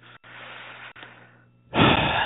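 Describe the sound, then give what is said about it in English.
Breathing during a guided heart-focused meditation, with a faint, hushed stretch over a low, steady hum, ending in one loud, airy breath. “Let's just breathe into it. Because emotion and some things feel out of our control, all we can do is breathe. So let's just breathe together.”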